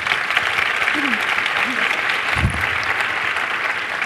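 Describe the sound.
An audience applauds to welcome panel speakers at a morning event. Steady, dense clapping fills the whole stretch, with a few brief voices faintly audible beneath it.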